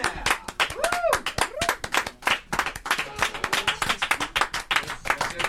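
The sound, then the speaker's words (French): An audience claps to welcome a guest onto a show. Sharp individual claps come in uneven bursts rather than a smooth roar, and a few brief vocal calls rise over them. “Eh ben, on accueille Sgilisder sous un tonnerre d'applaudissements, s'il vous plaît.”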